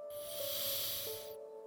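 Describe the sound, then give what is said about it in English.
A deep inhale through the nose during a guided breathing exercise: a soft, airy hiss that holds steady for about a second and a quarter, then stops, over a faint sustained tone. “taking a nice deep inhale through our nose”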